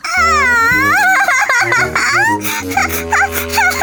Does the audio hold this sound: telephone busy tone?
no